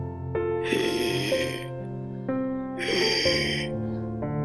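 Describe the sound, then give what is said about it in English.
Two heavy breaths from a person who has only one lung, each a broad, airy rush lasting under a second, heard over a steady sustained tonal background. “Sorry, I had to take a few breaths.”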